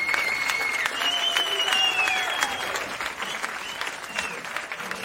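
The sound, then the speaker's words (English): Canned applause from a fake studio audience, a dense, steady wash of clapping with faint whistle-like tones over it, lasting throughout and easing slightly toward the end. “If nothing else, the fake audience always puts a little smile on our faces, right?”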